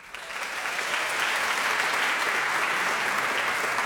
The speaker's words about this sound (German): Und nachdem sie so laut applaudiert haben, können sie eigentlich direkt wieder weitermachen.